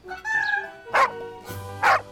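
A dog barks twice at a lakeside, each bark a short, loud burst spaced about a second apart, set against a steady tonal background.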